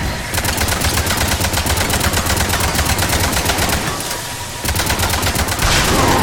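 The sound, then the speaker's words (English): Rapid automatic gunfire aimed at a power conduit beneath an elevator. It fires as a fast, regular stream of loud shots, pauses briefly, then resumes with the same hammering rhythm. “All right, we shot the power conduit.”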